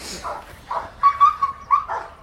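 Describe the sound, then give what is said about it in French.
A gendarmerie working dog, possessive over an object during training, gives a few short barks followed by high, whining whimpers in quick succession, moderately loud with quiet gaps between the bursts. “C'est le chien qui est très possessif hein, à l'objet.”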